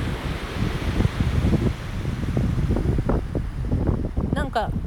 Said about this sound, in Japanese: 今湘南の海岸から中継しております今日は結構海が綺麗だ